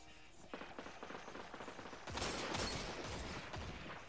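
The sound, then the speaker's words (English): Gunfire from an overpowered gun in a Destiny 2 Crucible match: many sharp, rapid shots that grow denser and louder about halfway through, forming a sustained volley. “I'm running Dead Man's Tail. That's it. I'm running the most overpowered gun in the game.”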